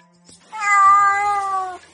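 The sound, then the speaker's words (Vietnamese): A thin little kitten gives a single drawn-out meow, clear and fairly loud, holding a steady tone for over a second before it stops. “Nghi Mặc nhìn một cục lông xù nằm trên ngực mình. Cái gì đây? Mèo con.”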